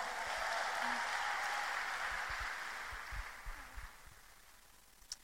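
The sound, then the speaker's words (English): An audience at a church service applauds to welcome a speaker: dense, steady clapping that gradually thins and fades over a few seconds, leaving a few scattered low thumps. “Please put your hands together as we welcome Demira. Please encourage her.”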